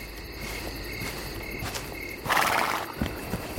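A horse, dragging a broken motorcycle by rope across the night steppe, gives a brief snorting neigh amid a constant dense chirring of crickets. Faint hoof knocks follow.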